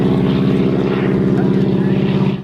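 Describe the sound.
Propeller airplane flying with a wing walker on its wing in England, a loud, steady engine drone with a deep low hum and evenly pulsing harmonics that hold constant throughout.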